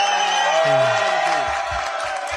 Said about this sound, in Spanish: Sí, un aplauso, ¡vamos!